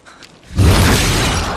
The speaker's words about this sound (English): The horntail strikes the ground, knocking Harry off his feet.